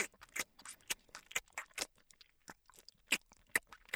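Chewing while eating egg: many quiet, crisp, wet mouth clicks and crunchy bites in an uneven rhythm, with no talking.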